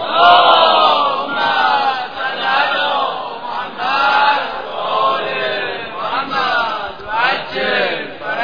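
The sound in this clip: A large crowd loudly chants salawat in unison at a religious gathering honoring Hazrat Masoumeh. The voices swell and ebb in repeated phrases.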